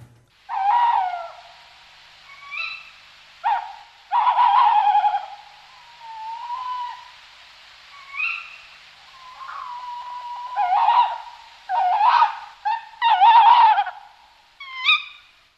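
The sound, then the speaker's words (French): Tawny owls, a male and a female, trade calls: wavering hoots and sharp, nasal kewick-like cries come in many separate bursts, with short pauses between them. “C'est le cri du chat huant. Le chat huant, c'est la chouette hulotte. Et donc là, sur cette bande-son, on entend le mâle et la femelle.”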